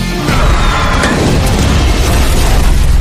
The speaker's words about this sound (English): It's a grenade I tied to a Russian tank shell. How many people does this blow up?